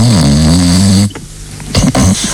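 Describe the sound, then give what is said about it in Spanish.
A woman snoring: a low, rough, buzzing snore lasting about a second, then a quieter breathy stretch and another rough burst. “Su señora está roncando.”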